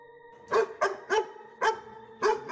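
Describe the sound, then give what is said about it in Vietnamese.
A dog barks at night in a series of sharp, separate barks with short gaps between them, loud against a faint steady hum. “Vừa dứt lời, tiếng chó ở đâu lại trù lên văng vẳng trong đêm”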